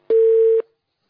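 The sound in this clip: A single steady electronic telephone tone signals a call line connecting: one flat, mid-pitched beep lasting about half a second, clear and alone with no voices.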